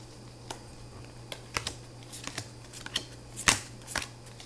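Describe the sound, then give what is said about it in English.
Six playing cards dealt face down make a quick run of soft, crisp flicks and snaps, irregularly spaced and fairly quiet, with a low steady hum underneath. “So I noticed he decided to deal the cards face down. Are you receiving them?”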